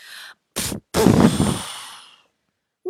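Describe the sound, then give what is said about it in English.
A character in an English-language Berenstain Bears audio drama blows hard at birthday cake candles: a brief voiced sound, then a short puff, then a long, forceful, breathy blow that trails away into silence. “Then it was time to bring out the birthday cake. Sister took a deep breath and blew as hard as she could.”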